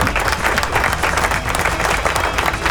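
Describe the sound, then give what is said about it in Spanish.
Crowd applause on an online rock radio program: dense, steady clapping that fills the whole clip at an even, loud level, with no talk over it. “¡Aplauso!”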